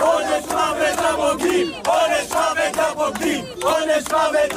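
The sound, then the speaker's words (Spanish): A crowd of harassers chants death threats against traitors outside a family home: loud, rhythmic group chanting in repeated bursts, each phrase shouted together by many voices. “Un grupo de acosadores rodeaba anoche el domicilio familiar de la codirectora de Nazca, de Raquel Shor, y coreaba, como escuchábamos, pena de muerte a los traidores.”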